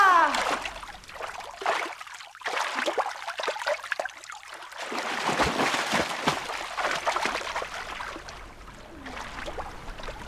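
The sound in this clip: Water splashing and trickling during a prenatal aquatic session, in irregular bursts of moderate loudness with brief quieter gaps between them.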